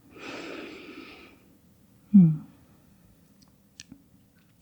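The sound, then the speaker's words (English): A slow, deep exhale during a guided yoga breathing exercise: a soft, breathy rush of air that fades out, then a brief low breath sound and a few faint clicks. “And then take another deep inhale and exhale.”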